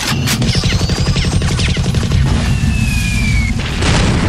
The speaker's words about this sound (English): I like these newfangled guns.